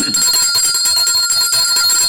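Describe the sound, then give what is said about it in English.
A hand bell ringing without pause, a bright, loud metallic clangor of steady high tones that fills the whole clip. “But I have to ring the bell again.”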